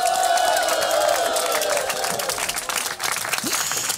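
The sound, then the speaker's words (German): Guests splashing in the pool of the Thermela thermal bath, a steady broad wash of water noise mixed with crowd sound, fairly loud and continuous. “Die Gäste planschen ganz gemütlich im Pool. Wir stehen am Beckenrand und sorgen für gute Unterhaltung”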